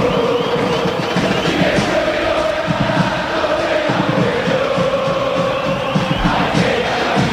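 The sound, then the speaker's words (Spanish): San Lorenzo football fans chant in a stadium, a loud massed crowd singing with a rhythmic pulse that keeps going throughout. “Este es el ambiente. Así está la gente de San Lorenzo alentando al ciclón. Lo sentís. Lo escuchás en Radio La Red.”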